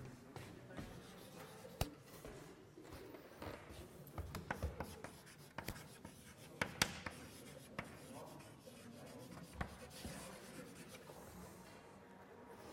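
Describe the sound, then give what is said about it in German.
Handwriting during a maths lecture gives faint, continuous scratching and rubbing strokes. Many small sharp taps and brief louder scrapes are scattered throughout at an uneven pace, with no voices. “Ich schreibe das mal so ein bisschen etwas ungenau.”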